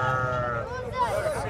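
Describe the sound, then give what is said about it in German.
Sheep bleating among hundreds of animals in herds at a traditional livestock market on dusty open ground in Qamishli. Wavering bleats rise over a continuous low din of the herd, with voices in the mix. “Auf dem staubigen Gelände stehen hunderte Schafe in kleineren und größeren Herden.”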